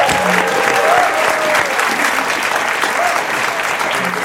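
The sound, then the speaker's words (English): Audience applause at a live show, dense and steady clapping from a crowd that holds at an even loudness throughout, easing only slightly toward the end. “For now, please give a huge thank you to Anne Coffey and Mike Gates.”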